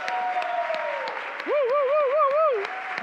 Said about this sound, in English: If you're ever going to clap for me and my wife, you have to clap for them, all right?